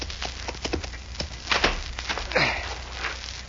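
A horse's hooves clip-clop as a rider comes up to a big ranch house, a faint, uneven series of thuds without voices.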